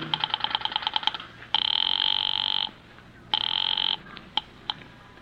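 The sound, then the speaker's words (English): Telephone signal tones on an office switchboard: a rapid series of short pulsed beeps, then two long steady ringing tones separated by a pause, followed by a few brief clicks. “I went out to the switchboard and dialed the courthouse number.”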